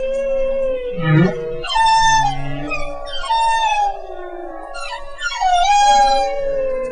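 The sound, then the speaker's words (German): Humpback whale song: drawn-out tonal moans and wails rich in harmonics, with pitch gliding and sweeping between phrases, loud and steady, no voices. “auch bei Walen sind neue Lieder immer sehr gefragt, besonders bei einer bestimmten Art, den Buckelwalen. Deren Gesang hört sich ungefähr so an.”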